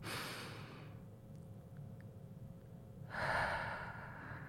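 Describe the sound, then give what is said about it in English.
Breath drawn and released through an open mouth: a soft, airy rush, a quiet gap, then a second, louder breathy rush. “And then we're going to exhale with an open mouth, through an open mouth. And so it's going to sound something like this.”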